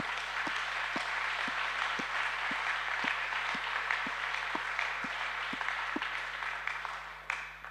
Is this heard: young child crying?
no